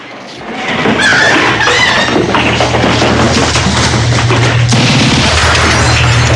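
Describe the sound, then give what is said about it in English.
Wooden floorboards smash apart as a man bursts up through the floor beneath a girl. A loud crash erupts after a quieter second, followed by sustained splintering, crashing noise that stays heavy and rough throughout. “A man bursts up out of the floor, and floorboards break under the girl.”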